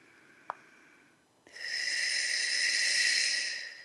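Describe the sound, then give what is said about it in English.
A short sniff followed by a long, forceful hissing exhale that clears the body in a breathing ritual, loud and steady for about two seconds before easing off, with no talk. “So I'm just using my breath to clear us.”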